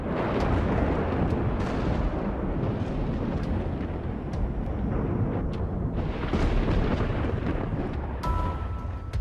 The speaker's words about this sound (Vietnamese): Ngoài trời mưa gió bão bùng tăm tối, đúng lúc có một tia sét rạch ngang trời, vang lên tiếng nổ đinh tai nhức óc.